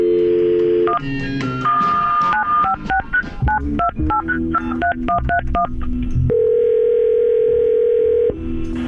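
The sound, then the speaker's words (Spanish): Telephone dialing: an opening steady tone gives way to a quick run of many short keypad beeps at varying pitches. A long, steady ringing tone follows. No voices are heard. “Ahorita le voy a marcar a Enrique”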